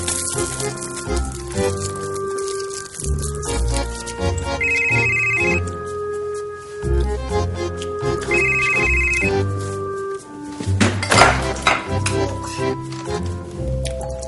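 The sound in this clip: A telephone rings with an electronic ringtone: a repeating melodic pattern with a bright, high tone that sounds out twice, fairly loud, among other tonal sounds.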